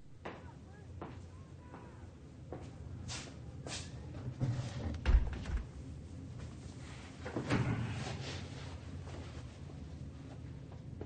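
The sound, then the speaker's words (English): A chair scraping and bumping in a police interview room as someone sits down: soft shuffles and knocks, with a heavier thud near the middle and another muffled bump shortly after. “Detective Dixon walks in, pulls out a chair and sits in front of Carter”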